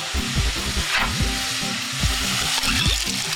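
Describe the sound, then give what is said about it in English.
Meat and onions sizzle as they sauté in a pot, a steady crackling hiss with a few low knocks of stirring scattered through it, with no talking. “After a few minutes of sauteing the meat and the onions, I'm ready to add my beans.”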